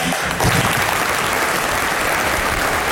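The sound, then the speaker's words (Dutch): Sustained applause from a crowd bidding farewell to a departing political party chair after a thank-you speech, a dense, steady wash of many hands clapping that stays loud and even throughout with no voices standing out. “Toen volgde de applaus en dat duurde en dat duurde.”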